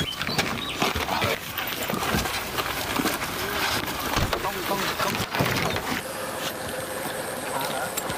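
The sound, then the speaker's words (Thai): Boat crossing a lotus pond, a steady wash of water and hull noise running under people talking throughout. “แล้วเราจะข้ามสระบัวเนี่ยมาอีกฟากหนึ่งเลยนั่งเรือมาแบบนี้นะครับ”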